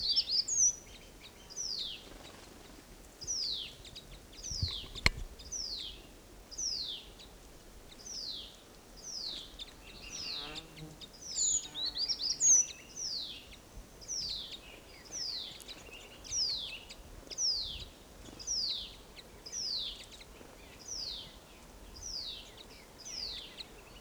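A flock of birds calls with many short, high, down-slurred chirps repeated in a steady rhythm, fairly faint, over a soft background hiss.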